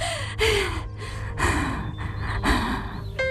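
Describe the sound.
Heavy, ragged panting comes from an old woman slumped in a chair in anger. A few loud, gasping breaths arrive in an uneven rhythm, with no speech between them.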